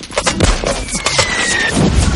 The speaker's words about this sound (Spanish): ¡Pedazo de hierro y cuerpo que estamos recibiendo fuego desde los árboles en el punto cruz marcado! ¡Ametralladoras y cohetes!